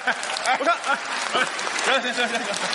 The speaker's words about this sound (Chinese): 行，您别鼓掌了